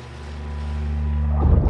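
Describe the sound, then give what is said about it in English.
A skiff motorboat crosses the waves, its engine holding a steady harmonic drone that slowly grows louder, then gives way to a rough burst of splashing and wind noise near the end. “A skiff skips across the waves.”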